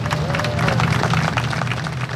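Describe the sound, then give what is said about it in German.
Hundreds of onlookers applaud as heavy-load transporters begin moving the Sternbrücke bridge, a steady patter of clapping mixed with crowd murmur at an even level throughout. “Um 10.22 Uhr begannen mehr als 1000 Räder der Tieflader sich langsam zu drehen, begleitet vom Applaus hunderter Schaulustiger.”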